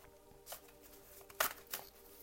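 A tarot card deck being shuffled gives a few brief, soft papery riffles and flicks, quiet and spaced unevenly, with no talking.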